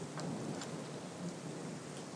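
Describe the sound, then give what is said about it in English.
Rain falling outside an apartment porch in Wichita, a steady, faint hiss of drops with no distinct breaks and no voices. “I'm standing right now coming out of my apartment on the porch, and it's raining.”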